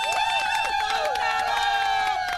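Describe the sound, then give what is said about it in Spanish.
An audience applauds and cheers for a congresswoman. Clapping runs beneath loud, excited shouting voices that carry through the whole stretch. “Miren, señor, un aplauso para la congresista.”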